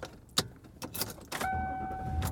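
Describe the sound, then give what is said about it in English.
Car interior noise while driving home: a quiet, steady low road rumble with a few sharp clicks, and a faint steady tone that joins partway through. “And I am driving home.”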